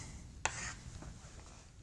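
Chalk or marker writing on a board during a math lecture: one sharp tap as it meets the surface, followed by faint, brief scratchy strokes.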